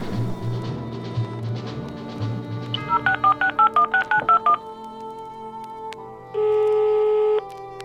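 Telephone keypad dialing: a quick run of short, evenly spaced DTMF beeps is followed after a pause by a longer steady tone, all heard over a low background hum.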